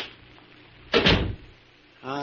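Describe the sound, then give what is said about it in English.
A door is pushed shut with a single solid thud and a short rattling tail amid quiet, and a voice starts speaking just afterward. “Come inside and close the door.”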